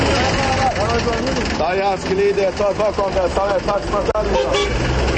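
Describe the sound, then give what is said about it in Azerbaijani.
Azerbaijani street bustle where people call out to passengers to board minibuses: loud, overlapping shouted calls over a steady wash of traffic and engine noise. “Bu səslər müxtəlif ünvanlara tələsən sərnişinləri mikroavtobuslara çağırır.”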